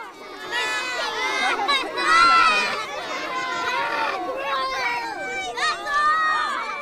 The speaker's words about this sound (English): That's the sound of a herd of children reacting to eggs pouring out of a female salmon.